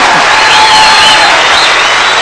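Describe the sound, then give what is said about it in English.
An audience claps loudly and continuously during a church sermon, a thick, unbroken wash of many hands with no distinct individual claps standing out. “if you're not clapping right now, if you're not clapping, then start clapping”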